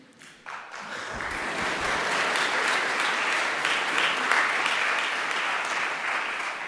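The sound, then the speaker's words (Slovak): Symposium audience applause that starts a moment in, swells quickly into thick, sustained clapping from many hands, and stays loud and steady to the end. “Ešte som nič nepovedal a už ste tlieskali.”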